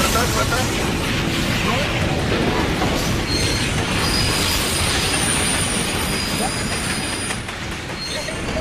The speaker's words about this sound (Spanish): La locomotora en Aguascalientes, México, chocó contra una pipa de gas